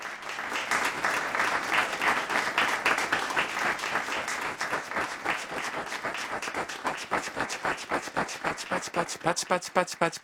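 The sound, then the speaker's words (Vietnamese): Applause from many hands, a dense wash of clapping that gradually thins into sharper, more separate claps toward the end, moderately loud and without talk. “Đây là một từ tượng thanh dùng để diễn tả tiếng vỗ tay.”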